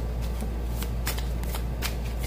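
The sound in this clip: Tarot cards are shuffled in a steady, papery riffle over a continuous low hum, with several brighter snaps of cards slapping together.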